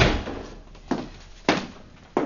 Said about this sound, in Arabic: أغلق الباب.